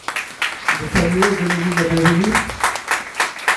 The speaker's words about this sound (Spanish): Ok, den un fuerte aplauso por favor por ellos.